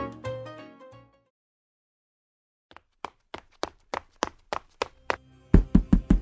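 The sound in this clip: Knocking on a door: after a short tonal phrase and a silence, a steady run of many sharp raps builds up, and the last few blows land much harder and faster.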